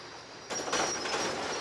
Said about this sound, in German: Da taucht er jetzt die sogenannten Mammutzähne rein. Darum heißt das Ding auch Mammut. Er senkt jetzt sozusagen die Spitzen dort runter und darüber nimmt er dann die Schwellen auf.